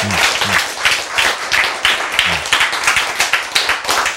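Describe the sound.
An audience applauds at a Korean-language health lecture. The clapping is dense and lively and holds steady for about four seconds.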